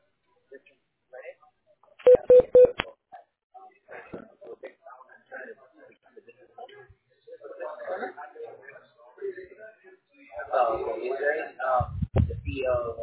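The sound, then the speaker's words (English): Telephone keypad tones sound as a call is being transferred: a quick run of bright, clipped beeps, followed by people talking and scattered soft line noises, with a brief low thump near the end. “let me connect you with Amy”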